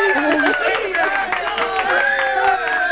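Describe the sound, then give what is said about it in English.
Applause and cheering voices from an audience saluting a group of girls after an evening performance, with dense clapping mixed with shouts and calls that stay loud and steady throughout. “We're going to give you girls a great big giant applause”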